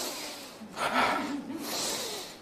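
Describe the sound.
A person imitates a sharp breath in while demonstrating breathing for a sofrology relaxation exercise: soft, airy rushes of air, fairly faint, with no words spoken.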